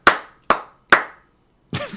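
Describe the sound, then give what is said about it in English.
Hand clapping at a comedy show: three sharp, evenly spaced claps, each with a quick decay, followed by a brief, softer burst with a voice. “Don't clap for that.”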